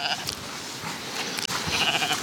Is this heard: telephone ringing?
no